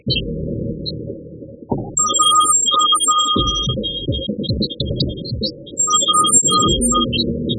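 A telephone rings on an unanswered call: a ringback tone sounds in two spells of short repeating bursts over a dense, steady low rumble, with scattered high beeps above.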